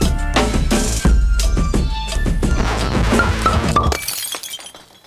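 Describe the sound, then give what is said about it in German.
Glass shatters in a loud, dense burst of crashes and cracks that lasts several seconds, then bright tinkling shards trail off and fade away alone. “Schon alles zerschlagen, bevor es überhaupt angefangen hat.”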